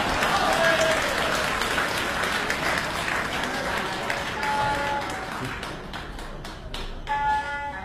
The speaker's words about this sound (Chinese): 谢谢大家的掌声。